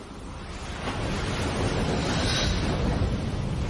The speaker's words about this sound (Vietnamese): Tôi thấy mình đang đứng trước một bãi biển hoang vu với tiếng sóng vỗ rền rào.